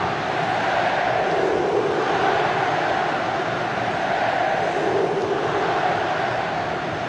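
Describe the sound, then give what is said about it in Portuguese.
Santa Cruz football fans cheer in a stadium during a match, a dense, continuous roar of crowd noise with gentle swells in loudness. “a festa é total da torcida Coral. 10 minutos e 30, que barulho é esse, que coisa linda. Acompanhe o clima.”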